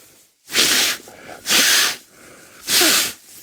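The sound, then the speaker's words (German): Three forceful nasal snorts through a blocked, broken nose, each a loud hissing burst of about half a second, evenly spaced with quiet breathing between them. “Die Nase frei zu kriegen, ist, wenn sie gebrochen ist, nicht so. Nicht so einfach, weil schneuzen soll man nicht. Das ist jetzt so ein freies Schnauben,”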